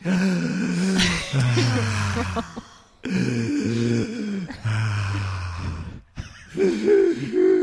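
Heavy, strained breathing mixed with voiced groans comes in three long bursts, separated by short pauses near the three- and six-second marks.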